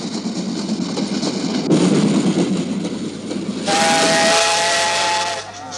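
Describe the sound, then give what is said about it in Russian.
A steam train whistle sounds as a hospital train pulls into a small railway station: a rough steam hiss comes first, then a loud, sustained, high whistle rich in overtones holds for about two seconds before cutting off. “Санитарный эшелон подходит к маленькой железнодорожной станции”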